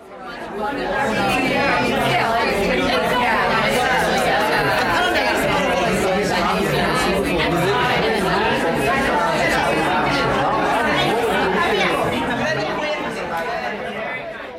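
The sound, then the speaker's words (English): Dense chatter from a large gathering of food researchers talking at once, a steady, loud babble of overlapping voices that fills the whole stretch without pause. “here is the sound of a whole lot of food folks trying to figure out a better future for us.”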